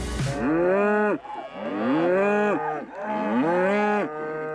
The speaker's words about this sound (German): Die Rinder leben das ganze Jahr über draußen auf Weiden rund um den Hof.